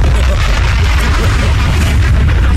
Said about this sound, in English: If I can get the bomb drop. Oh, you want a bomb? I want the bomb.